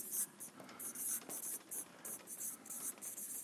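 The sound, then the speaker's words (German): Handwriting as someone jots down notes, heard as faint, irregular scratchy strokes of a pen on paper. “Ich schreibe ein paar mit.”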